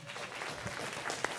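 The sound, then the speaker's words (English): Audience applause welcoming the head of organization at the opening of DebConf: dense, steady clapping from many hands at an even loudness, with one sharper clap standing out near the end. “please welcome, with a warm, long applause, the head of organization of this year's DebConf, Andreas Schulte.”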